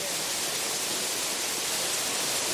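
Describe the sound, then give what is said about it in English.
Waterfall sound effect: a loud, constant rushing hiss of falling water, even and unbroken from start to finish with no voices. “So we went with a pouring sound last week, and it was a little subtle, so I decided to go with a waterfall sound this week”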